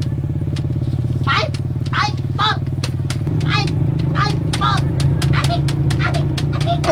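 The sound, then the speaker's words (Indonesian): A motorcycle engine being sped up drones continuously, and its pitch steps slightly higher partway through. People talk over it, and sharp clicks come through now and then. “Be, pakusgan ko pagpadagan ini ngakong motor.”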